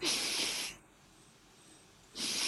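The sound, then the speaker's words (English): Two sharp nasal breaths, air drawn in through the nose while demonstrating a nasal dilator, each a loud hissing rush separated by a quiet pause of over a second. “okay i'll give you a demo so if i breathe from my nose”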